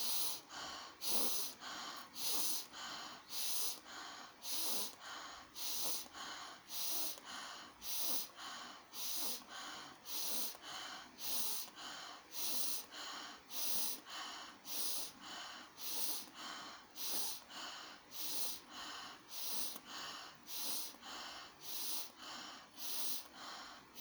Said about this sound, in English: Inhale through the nostrils, out through the mouth.